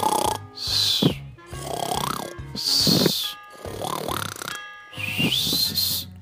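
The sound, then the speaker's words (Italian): Loud snoring and whistling from a man asleep in bed: about three cycles, each a deep rasping snore followed by a high, sliding whistle, with short pauses between them. “E tanto forte fischiò e russò che la regina si disgustò.”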